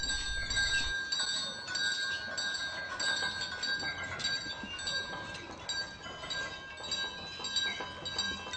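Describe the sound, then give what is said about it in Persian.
A bell rings from a bedroom, a fairly faint, continuous high metallic jangle that keeps up steadily from start to finish. “زنگ اتاق خواب مادرمه.”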